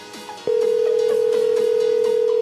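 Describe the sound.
Telephone dial tone: a steady, unbroken mid-pitched tone switches on abruptly and holds loud and constant to the end. Faint sweeping sounds run beneath it.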